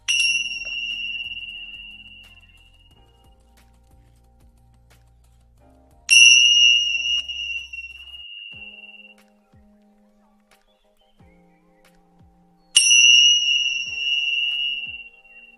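A Tibetan bell is struck three times at even intervals. Each strike gives a bright, high, shimmering ring that decays slowly over several seconds before the next.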